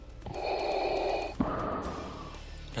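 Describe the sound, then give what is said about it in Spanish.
Heavy breathing of someone catching their breath: two long, loud, noisy breaths follow one after the other, with no talking. “Pero espérate, deja recuperar el aliento, ¿ok?”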